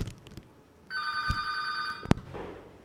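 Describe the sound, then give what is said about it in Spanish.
An electronic telephone ring as a call-in caller is connected: one bright, steady ring of just over a second, ended by a sharp click, over faint background noise. “vamos a conectarnos con esta otra llamada.”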